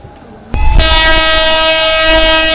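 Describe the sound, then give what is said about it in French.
A passenger train arriving at the railway station in Tivaouane: a low rumble, then a loud, sustained horn with a rich, steady harmonic tone that holds to the end. “C'est à 11h10 que le premier train est arrivé à la gare de Tivaouane.”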